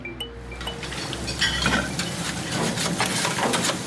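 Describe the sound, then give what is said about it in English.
A large batch of bacon sizzles as it fries, a steady hiss overlaid with frequent clinks and scrapes of utensils and pans as food is stirred and handled, with no talking. “I got two girls cooking, one cooking a case of bacon.”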